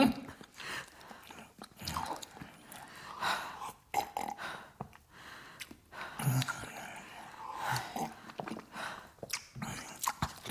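A person chewing and biting food while eating at breakfast, with irregular wet, crunchy bites and mouth noises that continue throughout at moderate level, with occasional soft thumps.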